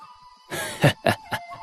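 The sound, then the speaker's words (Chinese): Someone coughs after choking on a drink of wine, giving three harsh, sharp coughs in quick succession. The first is the longest, and the later two are shorter and spaced apart. “徐觉呛得连咳了几声”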